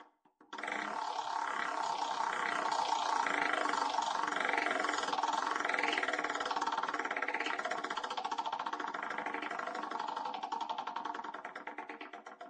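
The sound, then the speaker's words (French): A prize-style game wheel spins with a dense, rapid run of ticking and whirring that holds steady for several seconds, then tapers off at the end. No one talks over it. “nous allons faire tourner la roue”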